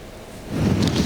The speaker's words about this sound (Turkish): Evet, İzmir'de de kavurucu sıcaklar bir haftadır devam ediyor ama bugün bir nebze rüzgarı şu anda görüyorsunuz. Rüzgar rahatlattı.